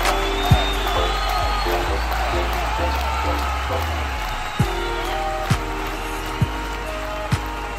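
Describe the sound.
Applause from a game show studio audience greets the host at the start of a dental-industry quiz show. The clapping is a dense, steady wash throughout, with a few sharp louder knocks standing out.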